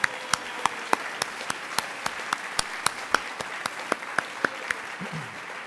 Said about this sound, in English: Let's give them a hand.